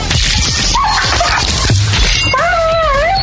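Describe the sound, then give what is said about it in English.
A dog whimpers and yips in high, wavering whines and short yelps over a loud, noisy background. The whines waver up and down in pitch toward the end. “I have, like, audio of how he died. Oh! Actually, I'll just play that for the people. This is how Roxy's dog died, everybody.”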